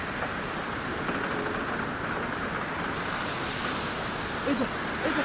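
High, rough ocean waves in a radio drama, a loud, steady roar of surf and rushing water that continues without a break from start to finish.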